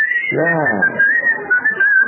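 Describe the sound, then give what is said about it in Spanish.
A person whistles a sustained, wavering high tone that keeps going for the whole clip with small shifts in pitch, and a brief lower voiced sound appears near the start. “Anda, chifla un poco. ¿No chifla usted en su casa cuando no solo o no?”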